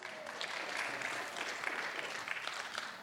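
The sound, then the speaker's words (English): A church audience claps together at the close of a service, a steady, even patter of hand claps heard faintly throughout. “don't clap too loud or the ceiling may fall.”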